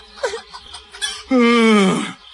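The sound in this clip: A hen clucks: a few short, soft clucks come first, then a loud, drawn-out harmonic squawk that slides downward in pitch.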